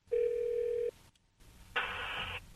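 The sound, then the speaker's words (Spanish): Telephone tones sound as a call to Havana is placed: a steady, low buzzing tone under a second long, a short pause, then a brighter buzzing tone burst, all faint. “Márcame ahora este número, el que te di, el segundo, el que es el de La Habana.”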